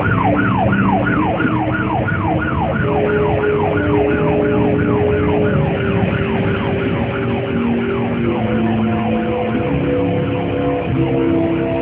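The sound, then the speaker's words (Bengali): A police cover van's siren wails loudly on its own, with fast rising-and-falling sweeps repeating throughout and steady lower tones held underneath. “পুলিশের cover van নিয়ে লিটন হায়দার পৌঁছলেন মিমের দেয়া ঠিকানায়।”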